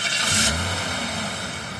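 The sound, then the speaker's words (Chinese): A car engine rumbles as the vehicle pulls up outside the gate of a house courtyard. The low, steady drone holds fairly loud for the whole stretch, with no talking. “车到了家院门外”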